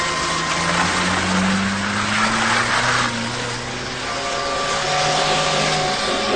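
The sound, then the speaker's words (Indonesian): A car engine pulls away in a steady, loud drone with broad hissing noise and low humming tones throughout, with no voices. “Aku pun segera menancap gas pergi dari tempat itu.”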